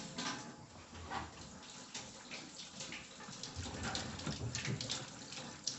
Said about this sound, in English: So we'll start by washing our hands.